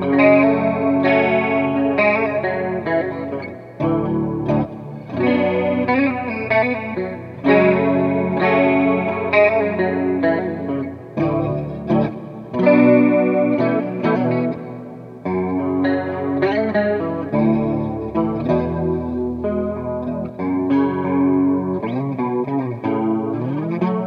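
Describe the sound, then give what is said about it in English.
Clean electric guitar through a Dimension C chorus and a Dispatch Master reverb plays a steady run of shimmering chords and notes, with a lush, wavering chorus and long echoing trails, heard alone without talk. “our kind of go-to clean sound is the chorus, which we're now using the Dimension C because it's way easier to control, and the Dispatch Master reverb, which sounds like this.”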